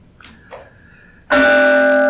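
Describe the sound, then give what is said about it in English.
A mindfulness bell is struck once after a quiet, faintly murmuring lead-in. It rings out loud and bright, with a long shimmering sustain that carries to the end. “Ah, yes, the bell. Takes you to this present moment.”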